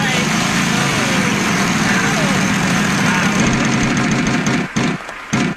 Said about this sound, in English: It's ready to spin. This wheel needs some WD-40.